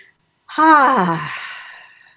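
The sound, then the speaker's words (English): A single deep breath is let out as a long, voiced sigh. It starts loud after a brief silence, the pitch slides downward, and it fades gradually over about a second and a half. “So let's just take a nice deep breath. I could use one.”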